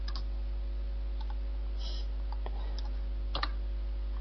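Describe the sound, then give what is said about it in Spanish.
A few faint clicks of computer keys being pressed to select and delete entries, sparse and soft over a constant low electrical hum. “que es borrar todos estos, los seleccionas y darle a suprimir, y dejarlos sin ningún valor.”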